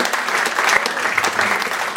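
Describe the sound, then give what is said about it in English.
Audience applause at a live event: dense, steady clapping that stays loud through the whole stretch, with no talk over it. “Round of applause for our friend Damien Callinan right here.”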